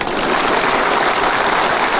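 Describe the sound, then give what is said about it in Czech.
Audience applause fills the whole stretch as a dense, steady wash of clapping at even loudness, with no break or voices. “teď už budou tleskat všemu”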